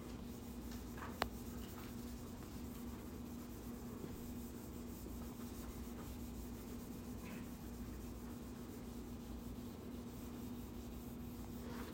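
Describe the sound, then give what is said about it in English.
Steady, faint rubbing and scratching of a pen or marker as a diagram is drawn by hand. A constant low hum sits underneath. “So let me draw you a little diagram.”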